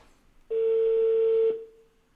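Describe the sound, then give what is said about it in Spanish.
Telephone tone as a call rings out unanswered to AT&T voicemail: one steady, mid-pitched electronic tone that sounds for about a second, then cuts off into near silence. “Creo que no va a contestar este güey. Se escucha muy fuerte, ¿verdad? Buzón de voz AT&T.”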